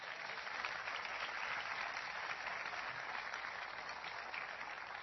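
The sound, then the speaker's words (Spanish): A church audience applauds during a Spanish-language sermon, a dense, steady wash of clapping that holds evenly for the whole five seconds at a fairly low level, without talk. “Denle un aplauso fuerte.”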